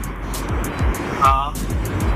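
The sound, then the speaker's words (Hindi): Road rumble from a car being driven while the driver is on a phone call, a steady low drone with soft swooshes and a voice talking over it. “मुझे लग रहा है कि आप इस वक्त शायद drive कर रहे हैं.”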